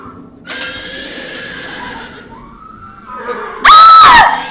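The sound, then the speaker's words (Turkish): A horse gives one loud, shrill whinny near the end as it falls off a cliff, after a stretch of quieter sustained sound. “Zavallı hayvan. Zavallı hayvan. O güzelim at uçuruma düştü”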